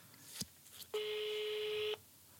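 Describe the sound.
A phone call's ringing tone plays as a call is placed: after a brief click, one steady, mid-pitched buzzing tone sounds for about a second, then stops.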